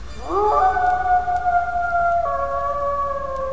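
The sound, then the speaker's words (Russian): A long, eerie howl comes from below a lighthouse. It slides upward at its start, then holds a sustained, steady wail that steps slightly lower partway through and carries on to the end. “Где-то внизу маяка раздался вой.”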